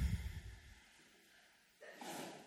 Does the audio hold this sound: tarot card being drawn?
no